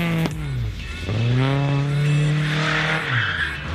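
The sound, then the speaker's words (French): An Opel Manta with a 200 km/h top speed is driven hard. Its engine revs loudly, the pitch dips and then climbs steadily, and tires squeal near the end. “Par contre, au niveau vitesse de pointe, c'était pas la force de l'Opel Manta.”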